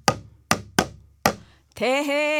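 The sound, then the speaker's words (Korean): Four sharp hits on a sogo, a small Korean hand drum, each dying away quickly, followed by a person talking. “이것은 봉규 씨 서랍에 있는 PD님이 산 걸로 추정되는 소고”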